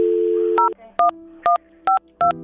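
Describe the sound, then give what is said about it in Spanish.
Telephone keypad tones sound as a number is dialed: a steady dial tone gives way to five short, evenly spaced beeps separated by brief pauses. “Ah, bueno, déjame le marco entonces.”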